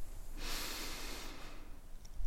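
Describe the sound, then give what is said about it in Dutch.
A slow, calm breath drawn in during a guided breathing exercise: a single soft, airy inhale lasting about a second, heard alone. “Adem rustig in. En adem rustig uit. We doen het nog één keer. Adem in.”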